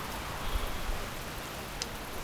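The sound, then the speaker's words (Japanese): Heavy rain falls as a steady, even hiss of dense drops with no talk over it. “ギリギリ持つかと思ったけど、見事に降ったな。この雨じゃ公園を散歩するのは無理だな。”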